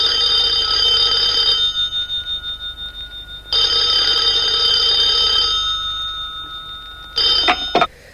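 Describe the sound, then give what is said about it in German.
A telephone rings with two long, bright electronic trills, each tailing off into fading pulses, then a third ring that breaks off after a brief burst. “Warum dann nicht Milton anrufen? Richard Ransom ruft an.”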